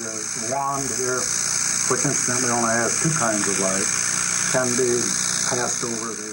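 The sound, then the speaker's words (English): A steady electrical buzz from a running color therm, a machine built from neon tubes. It holds an even, continuous tone the whole time under a person talking. “the buzzing noise you hear in the background is the color therm itself. To illustrate its function, or non-function, Dr. Wright fired up the machine.”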